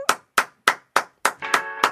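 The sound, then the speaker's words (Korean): Hand claps sending a guest off: about seven sharp, evenly spaced claps in a steady rhythm, with a faint tonal hum entering behind the last few. “그럼 저희는 박수로, 박수로 보내겠습니다.”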